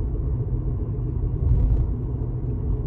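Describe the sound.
Steady, low road rumble from a car driving toward Provo, a continuous deep drone with no clear events and no talk.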